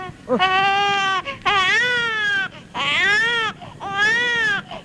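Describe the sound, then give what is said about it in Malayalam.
Children crying at night, four loud, drawn-out wails in a row, high-pitched and bleating in tone, each separated by a short gap. “കുട്ടിയോളെ കരച്ചില് രാത്രിയിൽ കേട്ട തീരെ ഉറക്കം വരില്ല, അതുകൊണ്ടാ അടച്ചോ.”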